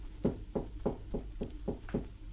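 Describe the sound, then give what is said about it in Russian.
Seven soft, evenly spaced knocks on a classroom door, low and muffled, each a dull thud at a steady rhythm with quiet pauses between, heard alone without voices. “такой, еле различимый стук. Учительница обернулась к двери. «Войдите!» Но никто не вошел. Вместо этого снова постучали.”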